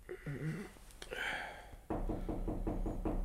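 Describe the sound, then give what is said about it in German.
Knocking on a bedroom door in the morning: after a quieter stretch, a steady run of regular, evenly spaced knocks begins and keeps going at a firm, moderate loudness. “Der Albdruck dauerte an, bis mein Diener am nächsten Morgen an meine Schlafzimmertür klopfte.”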